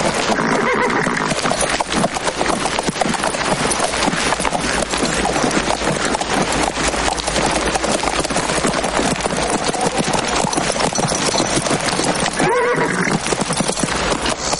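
A horse's hooves clip-clop through a canyon in a Western film scene, with neighing and a dense, continuous wash of sound around the steady hoofbeats.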